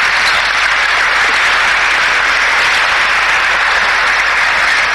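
Loud, dense applause fills an award ceremony as a rifleman comes forward to receive the Shaurya Chakra gallantry medal, a steady, unbroken roar of many hands clapping throughout.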